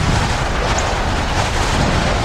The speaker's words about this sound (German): Er blies sich auf und wurde immer dicker und stärker. Genau über der Sonnenblume ließ er einen kleinen Sturm entstehen.